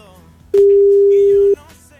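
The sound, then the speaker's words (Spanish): A telephone call tone plays while the caller waits for an answer: one loud, steady electronic beep lasting about a second, then silence apart from faint background noise. “Vamos a ver si contesta Carmen, brother.”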